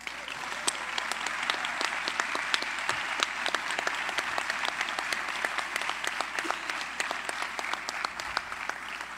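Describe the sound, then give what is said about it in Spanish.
Applause from the audience at a university ceremony, as the university rector is welcomed during a jazz festival event. Dense, steady clapping at an even loudness fills the whole stretch, with no voices over it. “Por favor, recibamos con un aplauso a la rectora de la Universidad Veracruzana, la doctora Sara Ladrón de Guevara.”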